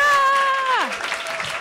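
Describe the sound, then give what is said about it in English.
An audience claps and cheers for a comedian's entrance at a comedy show. One voice gives a loud whoop that falls in pitch over a bed of steady clapping. “Please put your hands together for Sarah Kendall!”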